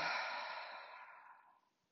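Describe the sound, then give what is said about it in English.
A deep breath is let out through the mouth as a long, soft, breathy hiss. The rush of air starts strongest and fades steadily over under two seconds, quiet and alone. “So, a deep inhale in through our nose. Full exhale out of your mouth.”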